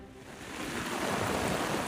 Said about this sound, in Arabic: الأمطار ما عم تهدى باللاذقية